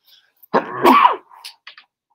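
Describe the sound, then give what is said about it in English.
A single loud sneeze from a man, a sharp burst with a strained voiced edge lasting under a second, followed by a few faint short sounds and then quiet. “I'm going to sneeze in a sec.”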